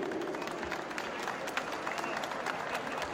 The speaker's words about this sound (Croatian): Molim vas jedan aplauz za ove divne ljude.